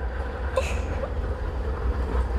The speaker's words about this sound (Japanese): あ、ちょうど電車が到着しましたよ。